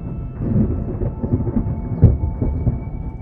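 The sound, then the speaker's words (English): Stormy ambience used as a massive hailstorm in a tabletop role-playing game: a continuous low rumble with a dense patter of falling precipitation, and one louder thump near the middle. “And you now all find yourself in a massive hailstorm that for every 60 feet you move, you will be making this dex save.”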